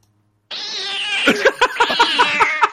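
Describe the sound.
A cat's screech from a horror film jump scare bursts in suddenly, a loud, high, sustained wail that pulses with several sharp accents before it cuts off.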